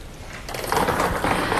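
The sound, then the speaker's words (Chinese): A lottery drawing machine for a seven-digit sports lottery draw starts spinning its numbered balls, giving a dense mechanical rattling and clattering that grows louder after the first half second and continues steadily. “请工作人员启动摇奖机。”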